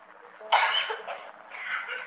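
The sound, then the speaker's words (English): A child with an asthmatic condition coughs and chokes, starting with a sudden harsh burst and followed by rougher, strained coughing that stays fairly faint. “asthmatic, causing this poor little thing to cough and hold its breath and choke.”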